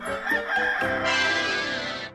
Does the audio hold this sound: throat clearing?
no